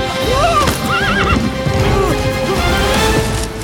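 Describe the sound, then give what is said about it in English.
Horses neighing and galloping in a film scene, several high wavering whinnies over a busy clatter of hooves, loud and continuous with no talk. “We jump on the horses and ride away. But the horses, they're moving.”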